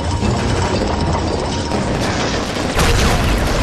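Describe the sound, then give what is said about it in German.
Gunfire and explosion sound effects form a dense, continuous barrage of booms and crashes, loud and unbroken, with a sharper burst late in the sequence. “Schießt! Zerschlag die schwarzen Flammen!”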